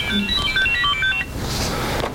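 Phone ringtone melody: a quick run of bright, high electronic notes plays for about a second, then breaks off into a steady background hiss.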